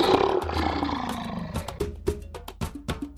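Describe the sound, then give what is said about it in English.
A lion roaring: a loud, deep, rough roar that tapers off, followed by several shorter, sharper bursts. “Lion.”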